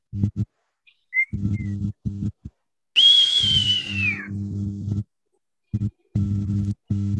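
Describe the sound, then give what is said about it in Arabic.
A ferry's whistle blows before departure: one sustained high whistle lasting over a second, dipping slightly at its end, set among low humming tones that start and stop repeatedly. “ده صوت صفارة العبارة. مستني ايه؟ العبارة هتمشي.”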